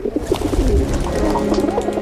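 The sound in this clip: Military carrier pigeons coo in repeated low, throaty, rolling calls that overlap over a soft rumbling background, with no voices.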